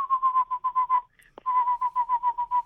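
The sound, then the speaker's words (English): A person whistles in imitation of a bird's trilling song: a rapid run of short, evenly pulsed notes at a steady, fairly high pitch, a brief break, then a second run of pulses. “Would you call it more of a trill or a chirr? Maybe, okay. Like a trill. And it adds one more at the end each time, so it's just like, it goes.”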